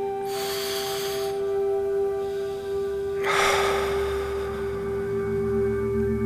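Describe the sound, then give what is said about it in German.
Slow, deep breathing during a guided relaxation exercise: two long, airy breaths, the second fuller and longer than the first, each heard alone against a quiet, steady background. “Nimmst drei tiefe Atemzüge.”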